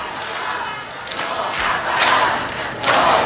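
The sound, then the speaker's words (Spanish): A crowd cheers and shouts to welcome someone arriving, a dense roar of many voices that swells in a few louder surges toward the end. “Alguien llega y le están jaleando.”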